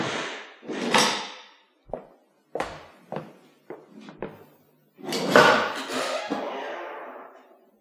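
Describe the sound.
A door is shut and locked: a run of short knocks and sharp clicks, spaced unevenly, followed by a longer rattling scrape.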